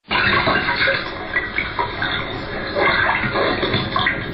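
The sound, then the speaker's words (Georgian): Rushing, splashing water accompanies a shadow theatre performance, breaking in abruptly and then pouring on continuously and fairly loud, with small surges and swells in the flow. “წყალი ხმაურს იწყებს”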